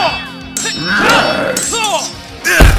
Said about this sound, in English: Jason reels back his sword, Goldar blocking it this time, and the two engaging in a series of blows and counterblows.